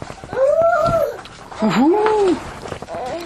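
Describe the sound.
A dog whimpers in a few drawn-out, wavering whines, each rising and sagging in pitch, with a fainter whine trailing near the end.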